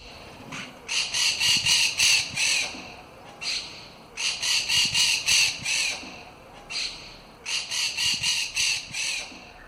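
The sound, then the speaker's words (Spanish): Starling chicks begging for food make harsh, shrill, rasping squawks. The calls come in several bursts of rapidly repeated notes, separated by brief pauses, and stay loud throughout. “A mí me suena que son pollos pidiendo comida de un estornino. Pollos de estornino, madre mía. Pues sí, jovencito de estornino pidiendo.”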